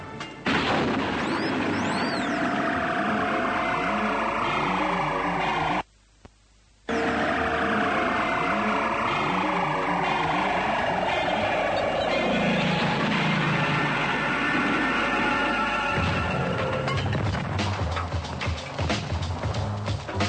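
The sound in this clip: Wartime battle noise with tanks approaching outside: continuous heavy rumbling and booming, laced with long falling whistle-like tones, broken by a short near-silent gap before the din resumes and grows rougher.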